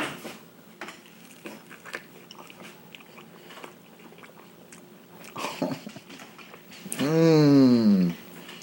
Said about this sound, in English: I'm going to take a bite out of it now, guys. And we'll see how this pork quesadilla tastes. Let's see if you can hear it.